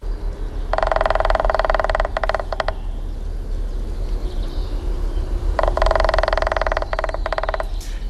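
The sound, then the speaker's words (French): A male woodpecker drums on a tree trunk to mark its territory, producing two bursts of rapid, rattling taps separated by a pause of a few seconds, over a steady low background noise. “c'est bien un pivert qu'on a entendu. C'est même un mâle, parce que s'il tape sur le tronc d'arbre pour produire le son qui a été diffusé, c'est pour marquer son territoire”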